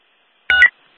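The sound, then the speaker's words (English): A single brief telephone keypad tone as a number is dialled: one clean dual-pitch beep lasting about a quarter second, alone against silence. “Alright, I'll do a dial.”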